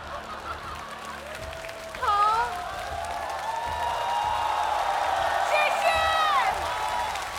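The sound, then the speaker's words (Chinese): Studio audience at a televised singing competition cheering and clapping for a singer, with shouting voices and whoops swelling sharply at about two seconds and staying loud and lively to the end. “现在全场的朋友都在自发的为娃娃加油。”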